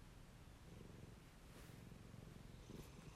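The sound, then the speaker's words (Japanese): A cat purrs softly in a continuous, low, rumbling rhythm that stays faint and steady throughout. “ゴロゴロしか言わない。”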